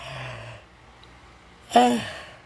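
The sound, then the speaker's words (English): A woman's yawn, given while tired and in pain: one short voiced exhale with a falling tone near the end, after a brief low hum at the start and a quiet pause. “Excuse me. That was a yawn.”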